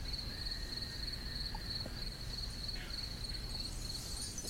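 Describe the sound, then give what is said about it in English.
Crickets chirping in the background, a faint, steady high-pitched trill that runs unbroken through the whole clip over low hiss, with no voices. “Listen, you can hear the crickets in the background.”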